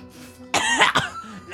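A person coughing and clearing their throat: a couple of loud, rough bursts close together, then a shorter one, all brief and without talk.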